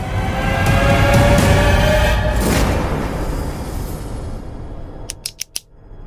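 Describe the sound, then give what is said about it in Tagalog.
Tape is ripped off the top of a new box and the box is opened: a loud, long rasping tear fills the first half, then fades, and a few sharp clicks follow near the end. “Tinanggal ni Mang Mike ang tape sa ibabaw ng isang kahon. Binuksan. Binulat-lat ang mga nakalagay dun.”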